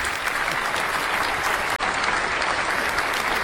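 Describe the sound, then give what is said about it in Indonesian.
Quiz show audience applause, a dense and continuous wash of clapping that stays loud and even, broken only by a very short dropout midway. “Oke, tepuk tangan dulu Bapak Ibu.”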